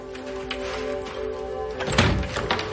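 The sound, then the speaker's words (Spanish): A library room door is closed with a soft, dull thunk near the end, heard over a faint steady tone. “Apaga la luz del cuarto biblioteca y lo cierra.”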